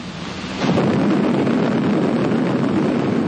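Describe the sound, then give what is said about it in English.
An atomic bomb test explosion breaks in with a sudden surge after a brief hiss, swelling into a loud, broad, deep roaring rumble that holds steady to the end. “let's take a few minutes right now and get acquainted with an A-bomb. Meet Test Abel.”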